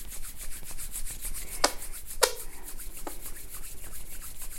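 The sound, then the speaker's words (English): Hands rubbing briskly together to generate heat, heard alone as a rapid, rhythmic swishing friction with a few sharper scrapes. “Then you could take your hands together, rub them, generating some heat in between them.”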